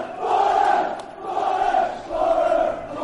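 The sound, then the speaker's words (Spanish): Middlesbrough football fans chanting "Boro" in unison, a loud crowd roar that rises and falls in three broad swells. “Mira, mira cómo animan en al Middlesbrough. Mira, escucha, escucha. ¡Boro!”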